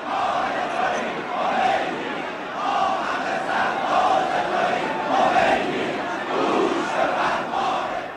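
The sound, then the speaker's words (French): A large crowd on an airport tarmac acclaims Ayatollah Khamenei with loud massed shouting and chanting. The sound rises and falls in repeated rhythmic swells, and the crowd noise holds without a break. “Le 9 novembre, un certain Ayatollah Khamenei sur le tarmac est acclamé.”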